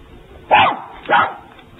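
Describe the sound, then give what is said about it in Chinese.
A little dog barks three times in sharp, loud yaps separated by short pauses, the last one cut off at the end, with no talk over them. “快抓住您的狗，靠边子过来。我怕狗。”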